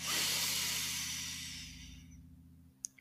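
A slow exhale through pursed lips, as if through a straw, during a guided meditation. A long, soft airy hiss fades gradually over a few seconds, followed by a couple of faint clicks.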